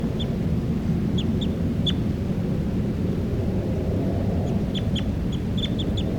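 A recorded bird calls during playback, giving many short, high chirps in irregular clusters over a steady low rumbling noise.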